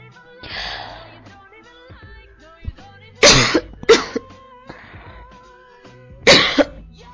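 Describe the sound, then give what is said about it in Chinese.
Harsh coughing after choking on saliva during a language lesson: several loud, rasping bursts in separate fits, with softer throaty sounds between them. “被口水呛到了，真是没用，经常被口水呛到。”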